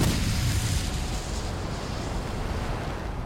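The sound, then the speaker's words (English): An ancient watchtower inside a cavern explodes into fire: a dense, heavy burst of low roaring noise, loudest at the start, that settles into a sustained rumble. “The watchtower, hundreds of years old, preserved in this cavern from sun and rain, explodes into fire.”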